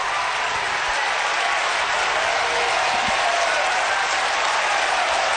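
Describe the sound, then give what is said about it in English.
Oklahoma baseball fans cheer and clap along the first base and right field line during a championship series game, a dense, steady roar of crowd noise that holds at an even loudness throughout, with no talk over it. “And now the Oklahoma fans, who are along the first base and right field line, are making noise, trying to encourage the freshman to make this a 1-2-3 inning.”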